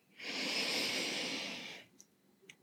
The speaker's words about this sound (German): dich bitten, einmal tief über die Nase einzuatmen